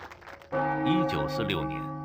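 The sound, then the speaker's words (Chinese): A clock bell strikes at midnight: a single struck bell whose sustained resonant tone fades slowly, with a voice talking over it. “1946年5月28日0点的钟声敲响”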